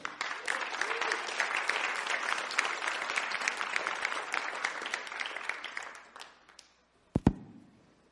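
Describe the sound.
An audience gives an extended burst of applause to welcome a guest speaker, a dense patter of clapping hands lasting several seconds. It thins out and dies away, then two soft thumps follow.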